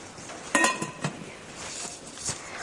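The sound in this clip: Pots and dishes clatter in a kitchen as a hard-boiled egg is put on to cook: a few sharp clinks and knocks of cookware, no talk.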